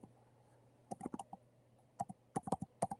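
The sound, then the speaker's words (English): Typing a Bible verse on a computer keyboard: irregular bursts of crisp key clicks in several quick clusters over a faint steady low hum, with no talking. “Ecclesiastes chapter 1, 9 through 11, okay? I'm going to type that in there.”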